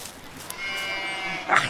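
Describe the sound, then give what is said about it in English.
A sheep caught by the incoming tide bleats briefly near the end, a short wavering cry over a low, steady background wash. “He's drowning the sheep.”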